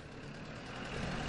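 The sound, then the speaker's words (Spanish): Low, steady engine rumble of a dark car approaching a prison entrance. The broad, even drone swells slightly louder toward the end. “Fuera, un vehículo oscuro se aproxima en la entrada de la prisión. El coche se detiene.”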